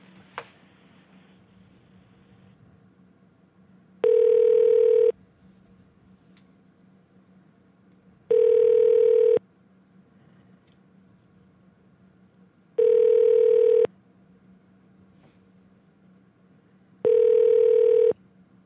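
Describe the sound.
Ringback tone as a telephone call is transferred: four evenly spaced rings, each lasting about a second, separated by roughly three seconds of near silence with a faint low hum underneath.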